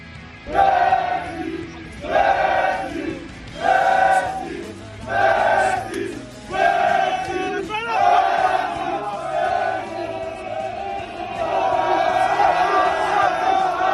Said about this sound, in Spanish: Esto es sonido de hace tan solo unos minutos. Así suena París a la espera de que llegue Leo Messi en avión.